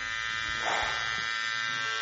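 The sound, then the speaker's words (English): An electric razor shaving off a mustache buzzes in a continuous, even drone with a slight swell early on, steady throughout with no voices. “Oh, okay, I did it. I shaved my mustache off.”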